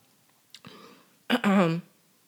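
A person clears their throat to shift mucus: a brief rough rasp, then a louder, gravelly guttural rumble, with no talk around it.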